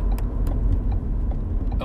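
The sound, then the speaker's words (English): A car being driven gives off a steady low rumble of engine and road noise that holds throughout, with a few faint light clicks on top. “I'm driving, so I'm thinking while I'm driving.”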